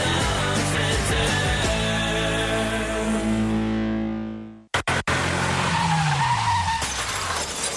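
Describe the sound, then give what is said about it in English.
Car tires screech in a long, loud, tonal skid lasting several seconds, which cuts off into sharp crashing impacts and then noisy clattering debris with falling tones, a sound effect with no voices. “If you've been in a crash, you need a lawyer you can trust.”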